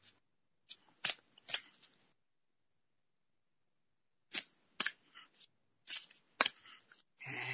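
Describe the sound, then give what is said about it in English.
Playing cards being pulled from a deck: crisp, papery snaps and flicks in two clusters separated by a quiet pause, each cluster a few quick clicks, fairly soft and alone. “And I will pull another card.”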